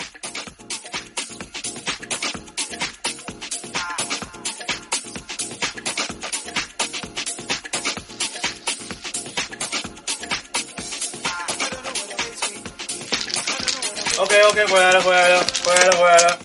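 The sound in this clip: Playing cards are shuffled in a long, dense run of quick clattering clicks, growing louder toward the end as voices join in.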